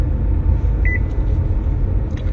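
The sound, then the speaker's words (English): A car's speed-limit warning gives a single short, high electronic beep when the driver exceeds a 30 km/h limit on a drive from Spain to Faro. The beep sits over a steady, loud, low road rumble. “this car beeps every time I go over the speed limit”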